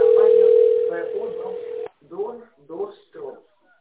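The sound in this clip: A steady telephone tone holds for about two seconds while a call to a company is connected to an operator, then cuts off and a voice starts speaking.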